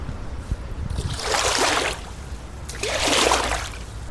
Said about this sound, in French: Alors ça, c'est une gaffe. Une gaffe, c'est indispensable. C'est un outil de base pour tout habitant d'une péniche. Ça nous permet de récupérer plein de choses, les trucs qui flottent sur l'eau. Euh, donc je vais vous montrer la gaffe, comment ça marche.